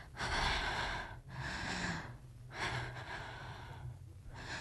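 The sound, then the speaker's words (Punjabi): Heavy panting breath, several loud, rough, breathy gasps in an uneven rhythm with short pauses between them, from a woman who has suddenly stopped with her heart pounding, fairly quiet overall and with no speech. “ਉਹਦਾ ਸਾਹ ਚੜ ਗਿਆ ਤੇ ਦਿਲ ਜ਼ੋਰ ਜ਼ੋਰ ਦੇ ਧੜਕਣ ਲੱਗ ਪਿਆ ਸੀ।”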